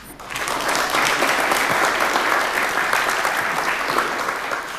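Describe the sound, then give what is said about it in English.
Audience applause for the sponsors at a conference: dense, steady clapping that starts almost at once and holds at an even, fairly loud level for about five seconds, with no talking over it. “And I think we can give a warm hand, welcome, a warm hand for them.”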